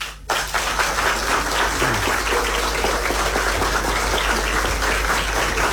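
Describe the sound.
Audience applause welcoming a guest who has just been introduced: a dense, steady wash of many hands clapping at an even loudness from start to finish, with no voices over it.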